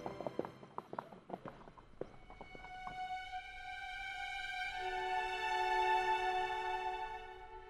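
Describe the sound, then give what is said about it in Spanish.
Horse hooves beat quickly and irregularly for about three seconds, then give way to a sustained tonal sound that swells and holds to the end. “Por suerte, encontré este caballo y pude regresar con él.”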